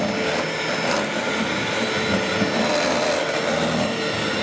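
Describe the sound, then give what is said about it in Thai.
Electric egg beater whirring steadily as it mixes a soft mixture, a loud continuous motor drone with a rough, scraping texture and no pauses throughout. “อันนี้จะเป็นเครื่องตีไข่เครื่องตีไข่นะ”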